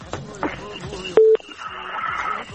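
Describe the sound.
A telephone dialing tone sounds as a number is dialed: a single short, loud, steady beep in the middle, set among busy background sounds before and after.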